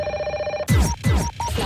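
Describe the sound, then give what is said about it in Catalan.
A telephone rings with an incoming call: a steady, bright electronic ring lasts just over half a second, then breaks off abruptly into louder, busier sound. “Al cap del dia reps un munt de trucades emprenyadores.”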